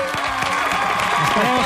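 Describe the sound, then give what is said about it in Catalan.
A studio audience applauds and cheers for a performer on a Catalan entertainment show, a continuous, dense clatter of clapping with a voice talking over it throughout. “Un aplaudiment per en Peyu, va! Vinga!”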